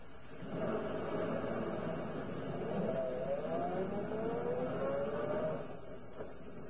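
A car driving: a steady, continuous engine drone and road rumble with a faint tonal whine weaving slightly in pitch, holding an even level throughout without voices.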